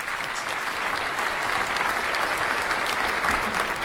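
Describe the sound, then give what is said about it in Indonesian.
Audience applause for a quiz competition after a contestant's answer is judged, a continuous crackle of many hands clapping that holds at an even, moderate level for the whole stretch. “Ya, tepuk tangan Bapak Ibu.”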